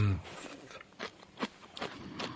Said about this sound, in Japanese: シャキシャキ音をぜひ。